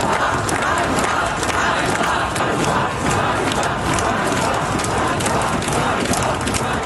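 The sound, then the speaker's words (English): A crowd of demonstrators in Kyiv protesting the sacking of the defence minister: a dense, loud wall of crowd noise punctuated by steady rhythmic beats, sustained throughout without pause. “It's the sound of demonstrators in Kyiv today.”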